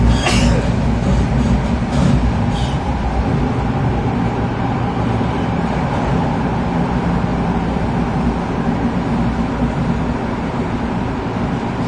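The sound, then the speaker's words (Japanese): A Tokyo Metro Tozai Line subway train runs in toward its final stop with a loud, steady rumble and rattle. A few brief higher clatters come near the start, then the continuous roar carries through to the end. “終点です。乗り換えのご案内です。 JR 線はお乗り換えください。 The next station is 中野 The last stop.”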